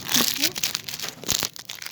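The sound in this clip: Crinkling of a food wrapper comes in brief, crackly bursts of rustling, with people talking over it.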